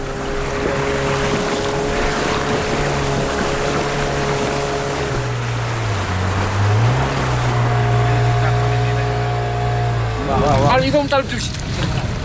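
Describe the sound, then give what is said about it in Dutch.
Engines of small wooden fishing boats on a beach in Dakar, on the Atlantic coast, drone steadily. The low, loud hum wavers and shifts in pitch, with a rougher burst near the end. “Overal op de stranden van Dakar hoor je de motoren van kleine houten vissersboten.”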